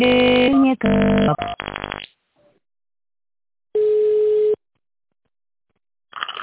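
Phone line ringing while a call is transferred: a few short electronic tone bursts, then a pause, then a single steady ring tone, with another faint sound starting at the very end.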